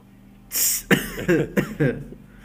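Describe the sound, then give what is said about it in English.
A deliberate, put-on cough imitating someone, heard as a few loud, raspy coughing bursts in quick succession. “I'm going to start coughing just so I can be just like him.”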